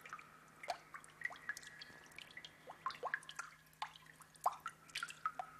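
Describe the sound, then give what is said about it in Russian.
A scatter of small bomb parts dropped into water, heard as a quiet run of many small, bright plinks and drips at irregular intervals over a faint, steady low hum. “Профессор бросает в воду россыпь мелких деталей от бомбы.”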